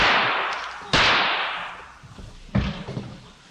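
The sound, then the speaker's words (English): Gunshots fired at a man: a few sharp cracks, two loud ones standing out, each trailing off in a long fading tail, with fainter thumps between them. “he extended his right arm. Morpheus sleeps. Mercury or Murphy... and fired several shots”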